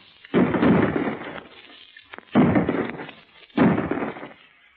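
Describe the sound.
A firing-squad volley of gunfire in a radio drama: three loud, booming blasts, each dying away over about a second before the next one, with a narrow, old-recording tone.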